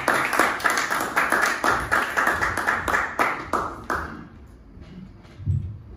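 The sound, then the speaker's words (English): Applause from an audience welcoming a comedian to the stage: dense, steady clapping for about four seconds that then quickly dies away, leaving near quiet with only a few stray claps. “All right, let's welcome to stage now. Put your hands together.”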